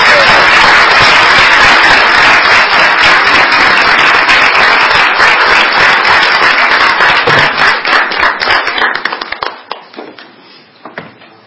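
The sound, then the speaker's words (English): Sustained audience applause at a ceremony honoring teams, a dense, loud wash of clapping that holds steady for several seconds, then thins into scattered claps and fades out near the end. “Let's give them another big round of applause while we take a picture.”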